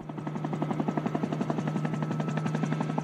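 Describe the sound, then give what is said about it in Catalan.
An emergency medical services helicopter flies over a four-vehicle accident. Its rotor chop is a steady, rapid, loud pulsing over a deep engine drone, and it continues evenly throughout with no voices. “És el so de l'helicòpter del Servei d'Emergències Mèdiques, un dels cossos d'emergències que ha hagut d'intervenir aquest dimarts”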